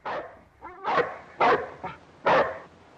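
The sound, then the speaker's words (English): A dog tethered by its lead to a pole barks as it chases a woman around it: a few loud, sharp barks in uneven bursts, with softer whining between them. “She rushes away from the dog. It chases her and she runs round a pole which the dog's lead is tethered to.”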